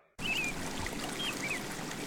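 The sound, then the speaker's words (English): Steady rushing of the Avon River flowing past at Stratford: an even, continuous wash of water that begins abruptly and holds at constant loudness, with no voices. “Hear that? That's the sound of your mornings at River Gardens Retirement Residence. Nestled along the Avon River in Stratford”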